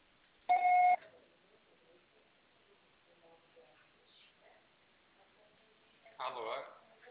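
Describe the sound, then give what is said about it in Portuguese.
A single voicemail recording beep sounds early: a steady, mid-pitched electronic tone lasting about half a second. Quiet line noise follows, and a voice begins speaking near the end. “Gravo seu recado. Você só será tarifado após o sinal.”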